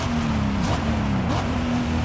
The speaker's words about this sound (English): So essentially the game is steering for me, which is okay. And I am driving a convertible.